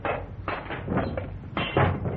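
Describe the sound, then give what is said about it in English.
Glass in a locked window being broken around the lock: a few sharp, crunching impacts come in short bursts over a low background. “Break the glass around the lock.”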